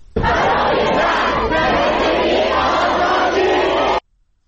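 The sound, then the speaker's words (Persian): A crowd of students chants slogans at a protest gathering at the university in Qom: a loud, dense mass of shouting voices that holds steady for about four seconds, then cuts off abruptly. “همزمان ویدیویی از دانشگاه قم هم اومده که دانشجویان تجمع کردن و دارن شعار میدن که صدای اونم میشنویم”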